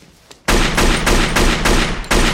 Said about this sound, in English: That's 8. He did it. That was only 7. Why are you counting my shots?